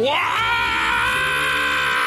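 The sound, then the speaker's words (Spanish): A person screams loudly in a contest segment, the cry rising quickly at the start and then holding as one sustained, strained tone for about two seconds. “Buen grito”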